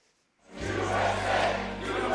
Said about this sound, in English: USA, USA. Voters cheered along with former President Donald Trump after his 30-point victory in Iowa's caucuses during his first big rally back in New Hampshire